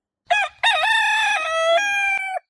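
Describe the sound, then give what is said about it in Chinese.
A rooster crowing loudly from a tree: one full crow, a short opening note followed by a long, sustained, harmonically rich call that holds its pitch before cutting off, loud and alone with nothing else audible. “嗰阵时，公鸡啱啱企咗响一棵大树上边，正系好卖力咁大声叫。”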